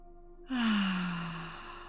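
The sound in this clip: A slow, deep sighing breath is released in a single long rush of air after a brief pause. A faint voiced tone sinks in pitch as the breath fades gradually over about a second and a half.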